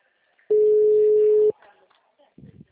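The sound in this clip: A steady telephone tone of one pitch sounds during an attempt to call someone who has stopped responding. It holds for about a second, then cuts off, followed by a few faint, scattered noises.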